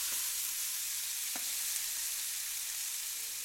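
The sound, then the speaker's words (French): Merguez sausages fry in a pan with a steady, bright sizzle of hot fat, an even hiss that stays constant from start to finish without talk. “Sur la recette de Jean, il y a marqué qu'il faut cuire les merguez dans une poêle.”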